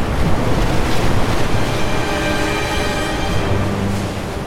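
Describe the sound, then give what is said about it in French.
Rough, agitated sea in the rain, heard as a dense, steady roar of churning waves with a broad wind-like hiss. The sound stays loud throughout with no voices. “La pluie crache, la mer est agitée, qu'importe, il faut s'enfuir.”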